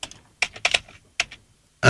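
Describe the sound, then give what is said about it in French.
Clicking and key taps on a computer: a few quick clusters of sharp plastic clacks separated by short pauses, ending in a louder burst of clatter. “Pour l'instant, alors attends, bouge pas, je clique.”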